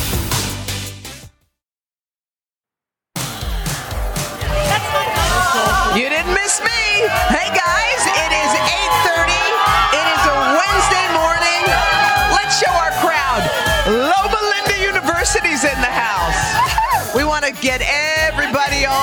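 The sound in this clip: An outdoor crowd cheers and whoops ahead of Memorial Day, a loud, continuous mass of shouts and yells that starts after a brief silence, with voices talking over it.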